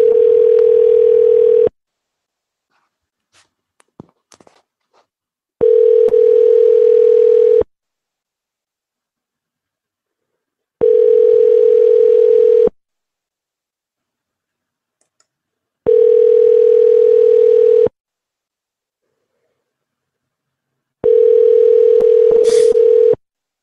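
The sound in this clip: Telephone ringing tones sound on a call to a locksmith: five evenly spaced, steady, loud tones of about two seconds each, separated by silent gaps. A few faint, brief clicks fall in the first gap.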